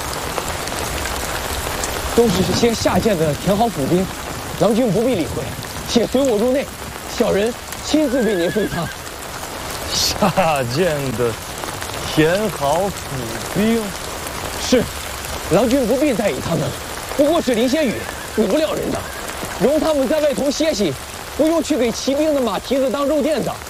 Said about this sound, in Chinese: 是我眼花了吗？如此大雨，那个棚子里都水了。